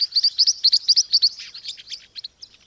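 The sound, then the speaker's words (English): Green-rumped parrotlet chicks in Venezuela call in many rapid, thin, high-pitched chirps. The chirps come in a quick, uneven series and grow sparser and fainter toward the end. “The chicks of green-rumped parrotlets appear to learn specific building blocks of sound from their parents, and then help pass these down to younger siblings.”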